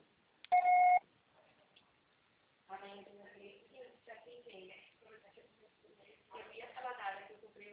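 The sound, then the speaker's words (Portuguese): A voicemail beep on a phone line: one short, clear electronic tone that cuts off abruptly, followed by a person talking. “Você só será tarifado após o sinal.”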